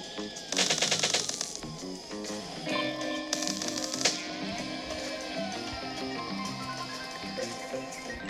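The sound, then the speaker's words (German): Rapid gunfire in a video game police shootout: two bursts of fast clicking shots, the second longer, over a steady tonal game soundtrack. “Ich habe auf ihn geschossen.”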